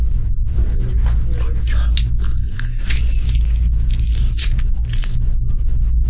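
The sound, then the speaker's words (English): An orange is peeled open, with wet squishing, sticky tearing and small crackles of rind coming in many irregular bursts over a low steady hum. “Remember the oranges that Tony gave us? We finally got to try them. We're currently opening an orange.”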